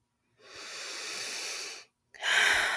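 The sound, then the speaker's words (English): A deep breath: a long, airy rush of breathing, then a brief silence, then a second, louder and more forceful breathy rush. “Take a deep breath and just quiet.”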